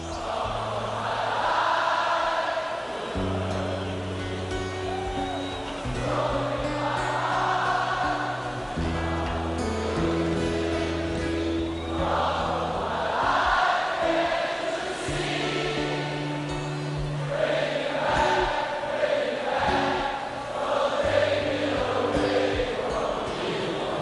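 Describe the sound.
A large audience sings along in chorus with the vocalist at the 1985 Rock in Rio festival concert: loud, continuous unison voices holding long notes that step from pitch to pitch, over a steady crowd din.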